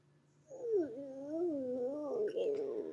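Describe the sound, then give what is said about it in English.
A voice imitates a dog's strange noise made while dreaming: one continuous, wavering whine-like moan that swoops up and down in pitch for about two and a half seconds, fairly loud, with no talk over it. “Sorry, my dog is making the strangest noise I have ever heard. I think he's dreaming.”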